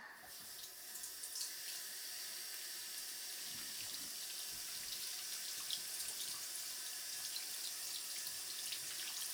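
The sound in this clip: Tap water runs steadily into a sink as soapy hands are rinsed. The faint hiss is continuous, with slight splashing, and no voices.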